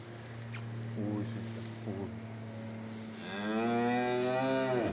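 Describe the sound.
A cow, the mother of a newborn calf, moos in a long, loud, rising call near the end, after a few short low grunts, over a steady low hum.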